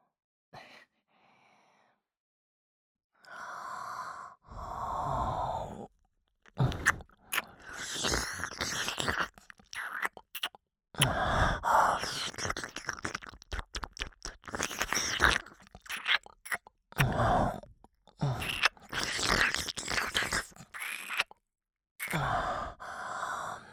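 Close, wet mouth sounds of nibbling and tasting an ear come in irregular bursts of soft smacks and crunchy bites. Short silences and faint sighing breaths fall between them.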